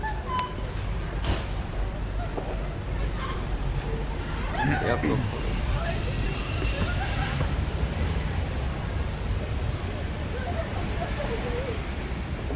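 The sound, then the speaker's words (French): Metro ambience with a dense, continuous rumble and a background babble of voices, holding steady throughout with scattered brief clatters. “Tu prends souvent ce métro? Tu veux un ticket?”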